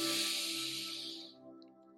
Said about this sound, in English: Go ahead and take a deep breath in.